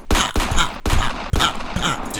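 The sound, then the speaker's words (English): Rapid volley of heavy gunshots as a full magazine is emptied into a body in a tabletop horror role-playing game scene: a dense, loud, continuous barrage of booming bursts with no pause between them. “You empty your clip on him”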